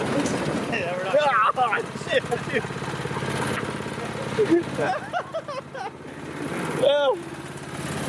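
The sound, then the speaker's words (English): A small engine putters steadily on a low-tech, bare-bones plywood rail go-kart in a desert canyon east of San Diego, a continuous low drone running throughout beneath people talking. “Basically, like a really low-tech go-kart that runs on rails instead of roads.”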